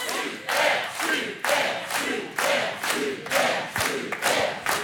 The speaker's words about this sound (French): Le public vous encourage à tenter la question à 1000 euros, mais c'est vous qui choisissez, évidemment.